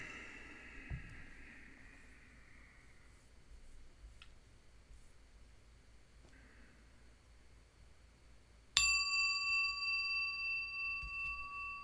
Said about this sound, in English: I'm going to get my timer hooked up here, my clock, my bell, and let's do some sitting.